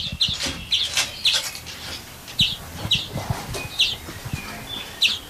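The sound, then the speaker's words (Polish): A young greenfinch gives many high, thin squeaks in a repeating pattern, while other birds call with lower, rougher notes beneath them. “Czasami krzyczą, bo razem siedzą, nie lubią się za specjalnie. Dzwoniec jest młody, to piszczy.”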